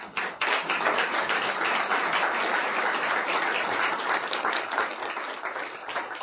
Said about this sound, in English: hopefully that's one of many rounds of applause over the course of the day.